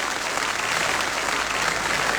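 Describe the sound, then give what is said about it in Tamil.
Audience applause at the close of a music program, with dense, sustained clapping at an even level from start to end. “இங்க இருக்கிற பார்வையாளர்கள் நீங்க தான் இன்றைக்கு வந்து எங்களை உற்சாகப்படுத்திருந்தீங்க, அதனால உங்களுக்கு நீங்களே ஒரு கைத்தட்டல் கொடுத்துக்கங்க.”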